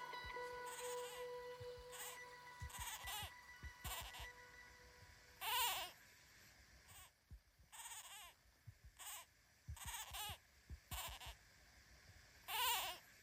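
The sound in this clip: Kakapo settling into a nest on Pukenui during a busy breeding season with chicks hatching, giving many harsh, nasal, bleat-like calls in repeated bursts, some loud, with soft low thumps and rustles between them.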